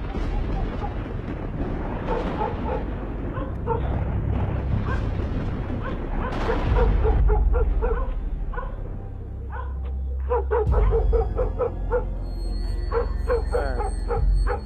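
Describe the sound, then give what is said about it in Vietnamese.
Dogs in a village barking wildly, with many overlapping yaps and barks in a continuous, agitated chorus over steady background noise. “Bầy chó ở trong làng lúc này tựa như phải động, nó cắn lên điên dại.”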